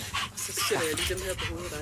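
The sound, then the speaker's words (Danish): Two dogs coming in give high whines and short yips mixed with panting, heard under people talking and greeting each other. “Ja, og der sker det, der kommer faktisk to hunde ind.”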